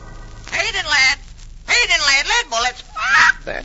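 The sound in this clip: A parrot lets out a few harsh, wavering squawks in loud, raspy bursts separated by short pauses.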